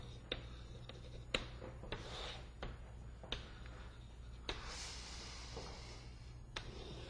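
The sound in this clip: Writing out a list of pros and cons during a physics lecture: faint scratching of writing punctuated by several sharp taps at irregular intervals over a quiet, steady hum.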